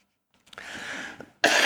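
Throat clearing and coughing from a person with a cold: a rough, raspy clearing of the throat followed by a sharper, louder burst at the end.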